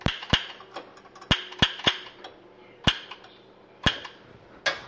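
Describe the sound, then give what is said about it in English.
Sharp, irregular clicks and snaps while a cooking fire is lit to roast a bird with a butter marinade. About eight loud, crisp cracks come in uneven bursts over a quiet background, with no talking. “Get a little fire going here.”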